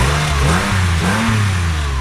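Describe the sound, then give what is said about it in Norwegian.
A dark blue Porsche's engine revs as the car rolls in, a loud, continuous low growl with strong rumbling harmonics whose pitch dips and climbs slightly. “Nå kommer det en Porsche rullende her. Den er ganske fin. Mørke, mørke blå ser som en mørk nattehimmel.”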